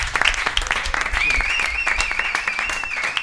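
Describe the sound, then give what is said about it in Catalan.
Applause from a gathered group, sharp individual hand claps clearly audible within a lively, fairly loud stream of clapping that stays energetic throughout with frequent crisp peaks. “I fora aplaudiment.”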